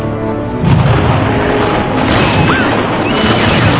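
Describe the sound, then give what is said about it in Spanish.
Sustained rifle volleys in battle as Spanish cazadores defending Baler answer repeated Tagalog attacks: a loud, dense, continuous roll of crackling booms with no clear breaks between the shots. “Los tagalos, cada vez que se reorganizan, vuelven al ataque, vuelven a la ofensiva, y los españoles responden con fuego graneado.”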